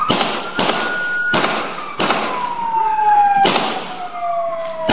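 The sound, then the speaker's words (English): Gunshots ring out during a police confrontation with a man holding a knife: five sharp, loud bangs at uneven intervals, over a steady siren-like tone that slowly falls in pitch. “Three quick shots were fired. Then six more.”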